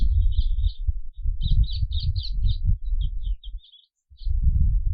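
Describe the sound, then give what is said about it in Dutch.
An icterine warbler calls with a series of short, high chirps and chattering notes over a constant low rumble. “als je luister, hoorde je op een gegeven moment een paar keer dat briet, briet, briet, briet, briet. Nou, dat is echt specifiek voor de spotvogel.”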